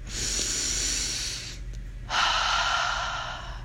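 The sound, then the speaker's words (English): A deep breath in and out: two long, airy, hissing breaths split by a short pause, the second a little louder, over a low steady hum. “I'm giving you some extra time to breathe right now, so take a big inhale in.”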